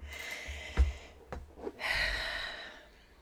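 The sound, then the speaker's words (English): A quiet, slow deep breath is drawn, with a few soft puffs of air followed by a longer, breathy stretch. No other sounds and no speech. “signaled to take a deep breath, which I'm going to do right now.”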